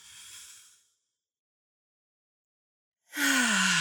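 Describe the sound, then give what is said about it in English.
During a guided breathing exercise, a soft inhale through the nose is followed by a silent pause while the breath is held. A louder, breathy exhale through the mouth comes at the end, faintly voiced like a sigh. “we're going to breathe in through the nose. Hold for a few counts and out through the mouth.”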